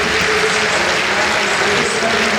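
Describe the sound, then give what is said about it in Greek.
A stadium crowd claps along for a pole vault attempt at a Greek record height: a loud, dense, continuous wash of clapping with voices mixed in. “Χειροκροτεί και ο Ντουμπλάντης ρυθμικά μαζί με όλο τον κόσμο στο στάδιο.”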